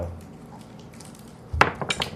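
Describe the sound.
Dice clatter across a table during a tabletop game. After a quiet stretch, a quick burst of sharp, bright clicks and knocks rattles briefly and then settles.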